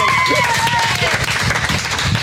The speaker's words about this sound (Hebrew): כל המיקרופונים רועדים ברוב מחיאות הכפיים.